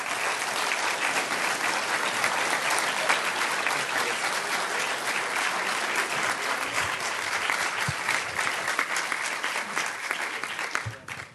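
An audience applauds to welcome Admiral Fallon to San Francisco, dense, steady clapping that holds loud throughout and thins out only at the very end.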